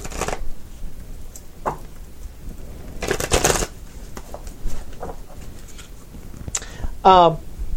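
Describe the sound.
Playing cards being shuffled during a tabletop card game: a few brisk, crisp riffling bursts, one lasting about half a second, scattered among quieter handling rustles, while people talk.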